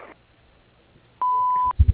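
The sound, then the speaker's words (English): A voicemail beep before the caller leaves a message: one steady, clear mid-high tone lasting about half a second, sounding alone after near silence. “After the tone, leave a brief message with your phone number, speak clearly, and we'll get back to you as soon as possible.”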